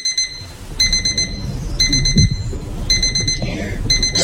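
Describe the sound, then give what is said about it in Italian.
An alarm clock rings in shrill electronic bursts. Groups of rapid, high-pitched beeping repeat after short pauses over a faint low rumble. “Sono la tua sveglia che ti chiama e ti dice che stai iniziando Top of Music.”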